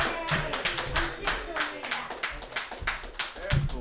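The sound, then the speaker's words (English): Audience clapping for a comedian at an open mic comedy night: many quick, dense claps in a steady run throughout, with faint voices mixed in. “Thank you for clapping.”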